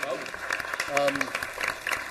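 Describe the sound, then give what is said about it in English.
Applause at a public commission meeting: a crowd clapping steadily, with a few voices audible through the clapping near the middle. “So I'd love to give everyone a round of applause, and then if we could bring them up.”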